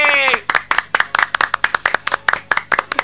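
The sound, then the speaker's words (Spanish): Applause at a live Christmas special: many sharp, distinct hand claps in a brisk, fairly regular rhythm, loud and close together, following a short burst of voice at the start. “Aplausos por la Navidad de Wisepi”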